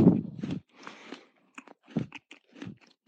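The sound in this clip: A crunchy Pickup chocolate biscuit bar is bitten into with a loud, brittle crunch, followed by several shorter crisp crunches and chewing.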